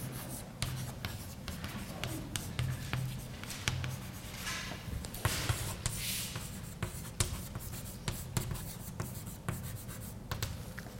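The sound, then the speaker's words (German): Writing a vector on a board during a lecture on phase space: continuous scratchy strokes with many short, sharp taps as letters are formed, steady and moderately faint throughout. “jetzt schreibe ich das einfach mal als Vektor hin, q und p.”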